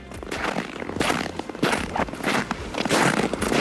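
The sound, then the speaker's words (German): Footsteps crunching on snow, many loud, gritty crunches in a steady walking rhythm. “Na, spüren Sie schon den Schnee unter den Fußsohlen?”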